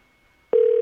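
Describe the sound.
Telephone ringing heard from the calling end: half a second of near silence, then a single steady mid-pitched tone starts sharply and holds unbroken to the end.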